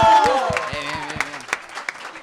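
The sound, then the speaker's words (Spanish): Audience applause at a school quiz game, a spatter of claps that starts under a voice calling out and thins into loose, scattered claps with a few sharp, isolated slaps toward the end. “¡Un aplauso!”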